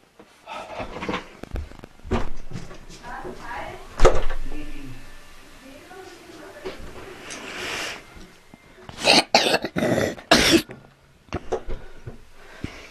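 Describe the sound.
A sneeze from a child at home: a sharp, explosive burst stands out among voices talking, breathy sounds and bursts of rustling and handling noise.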